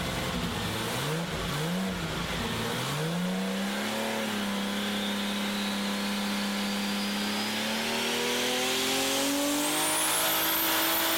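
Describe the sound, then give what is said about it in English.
Turbocharged Nissan race car engine revving on 50 pounds of boost, loud and continuous, its pitch climbing after a choppy start, holding a steady drone, then rising again with a climbing high whine. “50 pounds of boost on a Nissan Racing S. Turn that up a little bit. I want to hear that.”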